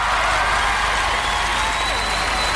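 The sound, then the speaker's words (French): An awards ceremony audience applauds in a thick, continuous roar of clapping that stays loud and steady throughout, with no break. “J'aimerais qu'on les applaudisse”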